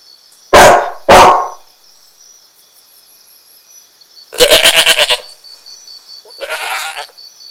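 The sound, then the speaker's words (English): Two loud dog barks come in quick succession. After a pause, two longer wavering goat bleats follow. “هذا كلب”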